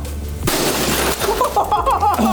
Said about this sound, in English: That was glass. Yeah, it was.